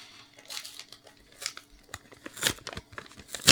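Tearing and crinkling as a cigar package is cut open, several short, quiet rustling bursts with sharper crackles near the end and no talk.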